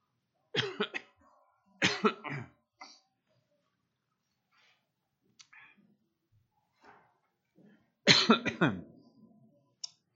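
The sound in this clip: Coughing from hay fever interrupts a church service, with two clusters of sharp, loud coughs and a few isolated single coughs between stretches of silence.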